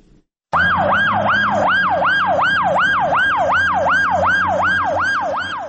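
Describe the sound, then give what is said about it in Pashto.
Ambulance siren outside an emergency hospital in Lashkar Gah as ambulances bring in the wounded, a loud wail that starts abruptly and sweeps rapidly up and down in pitch, many quick even cycles without pause. “د لشکرګاه د ایمرجنس روغتون مخې ته د څلورم امبولانس ته چې هر یوې په نوبت ټپیان راوړي.”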